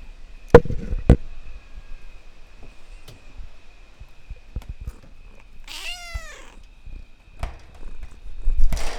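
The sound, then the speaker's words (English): A cat climbs and claws at a screen door, making scattered sharp taps and scratching clicks at irregular intervals. A single drawn-out meow comes midway through. “That's the sound of the screen door being destroyed.”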